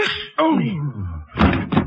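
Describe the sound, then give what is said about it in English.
A door shuts as someone leaves a room for a hallway with elevators, giving two solid thumps close together near the end after a brief stretch of other sound. “I closed the door and started down the hall for the elevators.”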